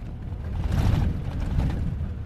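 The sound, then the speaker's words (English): Steady low engine rumble from pickup trucks loaded with migrants setting off at sundown on the desert edge outside Agadez, a dense, continuous drone with no talk. “I've come on the outskirts of Agadez, on the edge of the desert, and as the sun's gone down, I'm watching pickup trucks loaded with migrants starting an overnight ride.”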